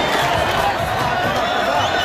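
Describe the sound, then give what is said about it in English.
A crowd cheering in Khan Yunis as loved ones greet Palestinian detainees released from Israeli prisons, a dense, steady wash of many voices and shouts. “In the city of Khan Yunis, loved ones cheered at their release.”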